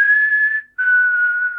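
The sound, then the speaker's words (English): A person gives a two-note signal whistle of the kind used in public to find each other: a clear, steady high tone, a brief gap, then a slightly lower note that slowly falls, loud and alone. “that whistle that they do, like.”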